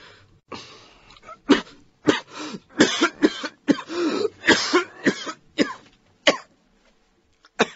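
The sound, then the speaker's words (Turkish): A man coughs in a long, harsh fit: many hoarse, chesty bursts come in quick succession with raspy throat-clearing between them, loud and alone without talk. “Ah, öksürük. Beni boğacak.”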